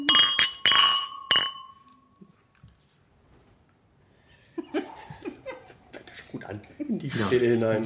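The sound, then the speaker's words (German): Glasses clink together in a toast with a few bright, ringing strikes close together at the start. Quiet follows, then people talk and laugh. “Lass uns anstoßen.”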